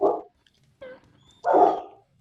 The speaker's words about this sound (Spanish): Por aquí bueno, están saludando los perritos. Ay, qué lindos.